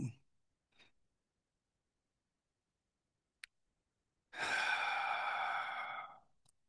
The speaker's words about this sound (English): Releasing the air slowly and noticing the sensations that come with that exhalation when we just let the air go.